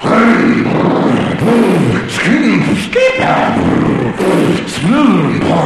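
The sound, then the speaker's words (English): A voice imitates a go-kart engine warming up with many loud, rough, revving grunts, each swelling and falling in pitch in a steady run of bursts. “And we're all warming up. I'm warming up my go-kart.”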